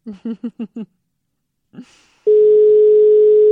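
A telephone dial tone sounds after a dropped call, just before redialing. A few short pulsed bursts and a brief breathy sound come first, then a steady, unbroken, loud single-pitch tone holds to the end.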